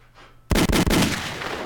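Gunshot sound effect celebrating boxer Tank Davis's knockout of Santa Cruz: after a near-silent start, a sudden loud burst of rapid gunfire erupts, several shots running together before a sustained crackling tail.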